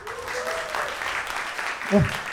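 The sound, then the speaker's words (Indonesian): Scattered clapping rises from a small audience at a live show in Bekasi. The loose applause is mixed with voices talking over it, and one voice briefly stands out near the end. “Tapi ini yang asli anak Bekasi, coba tepuk tangan.”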